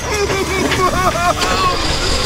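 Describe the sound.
A bus engine rumbles low and steady as the vehicle drives away, under excited animated voices.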